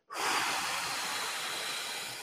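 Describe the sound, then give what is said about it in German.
Slow exhalation through the mouth after a deep nasal inhale, part of a calming breathing exercise. A steady, breathy hiss starts abruptly and stays level, fading slightly toward the end. “ich mach's einfach mal, ne? Äh, tief durch ja, die Nase einatmen, so. Hm, und dann durch den Mund auf zehn verlangsamtes Ausatmen”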